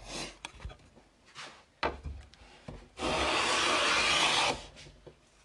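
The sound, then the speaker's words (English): A blade cuts a shaving from wood: a few short scraping strokes, then one long, steady, loud rasping cut lasting over a second before it stops abruptly. “I'm tempted to experiment with sound effects, so here's a shaving, the whole thing.”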